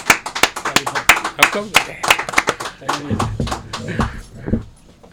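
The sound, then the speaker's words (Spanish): Applause from a small group at the end of an interview, a few seconds of quick, irregular hand claps that thin out, with voices talking over and after the clapping. “pues fuerte aplauso, muchas gracias.”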